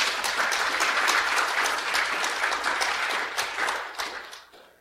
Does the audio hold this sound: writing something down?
no